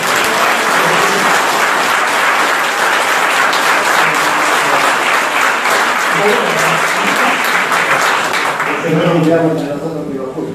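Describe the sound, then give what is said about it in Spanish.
Audience applause at a talk: steady, dense clapping holds loud and even for about ten seconds, then thins as a voice begins speaking near the end. “les pido un aplauso.”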